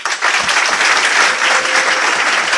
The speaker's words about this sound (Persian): برش دست بزه.